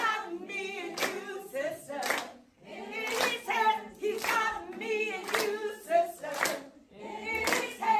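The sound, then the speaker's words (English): A group of people clapping in uneven bursts, with voices mixed in among the claps at a fairly loud level. “There's a bunch of people clapping.”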